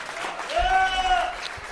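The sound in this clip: Audience applause for a performer on a stage show: brief, fairly loud clapping and cheering, with a sustained whoop or whistle rising over the crowd in the middle.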